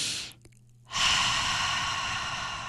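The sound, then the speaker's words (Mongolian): A slow, deliberate exhalation during a breathing exercise for sleep. A brief airy breath comes first, then a short silence, then a long, steady, even hiss of air that holds at a constant level until the end. “За тэгээд амьсгаа гаргахтаа бол 8 секундаар амьсгаа амьсгаж гаргана.”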